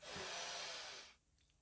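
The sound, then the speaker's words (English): A deep breath drawn in through the nose during a guided breathing exercise: one faint, airy, hissing inhale lasting about a second, then near silence. “Let's all take a nice deep breath in through your nose,”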